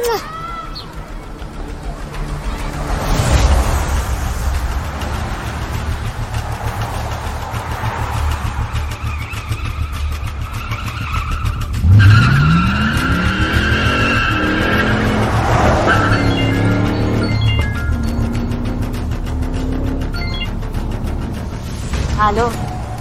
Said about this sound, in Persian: پشت فرمون تو خیابون دارم میرم سر قرار.